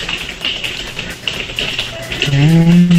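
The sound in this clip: Frantic, rapid tapping on keys during an online game, a dense, continuous patter of small clicks. A voice comes in near the end over the tapping.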